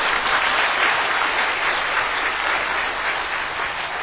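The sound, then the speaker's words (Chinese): A church audience claps to welcome everyone, a thick, continuous wash of applause that stays level for about four seconds without any speech. “鼓掌欢迎大家”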